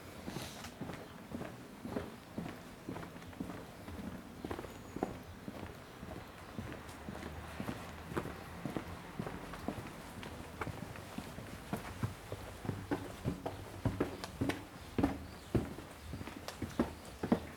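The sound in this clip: Footsteps climbing small outdoor stairs in a village street in Reillanne, as many crisp, fairly faint steps in a steady, even rhythm with no talking.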